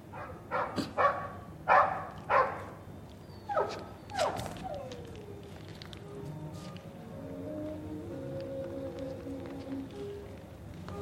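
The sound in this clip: A dog barks outside in a quick, loud series of sharp barks over the first few seconds, then falls quiet as softer, drawn-out whining tones continue beneath a low steady background.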